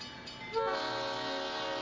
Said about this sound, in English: There's a fucking train going by right now.